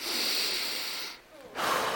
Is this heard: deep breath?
yes